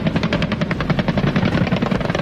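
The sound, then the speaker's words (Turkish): Military helicopters, including a Gökbey, take part in an amphibious landing exercise launched from an assault ship, producing a loud, steady, rapid rotor chop that pulses evenly throughout, with no voices. “aralarında Gökbey'in de bulunduğu savaş helikopterleri”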